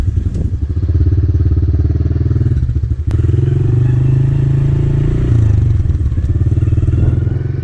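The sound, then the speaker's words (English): A dirt bike engine idles steadily during warm-up, a loud, low, throbbing note that holds without a break and shifts in level a couple of times as the throttle is blipped. “after letting it idle, just blipping the throttle for a minute or two”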